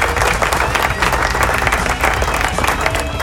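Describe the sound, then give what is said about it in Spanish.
Applause from a crowd, a dense, steady wash of many hands clapping that holds at an even loudness throughout. “Aplauso.”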